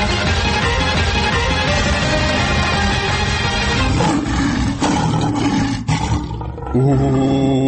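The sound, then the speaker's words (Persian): Lion roaring: loud, harsh, sustained roaring that fills the whole stretch with dense rough noise, dipping briefly near the end before a steadier, more tonal sound takes over. “اوه، این غرش شیر بود؟”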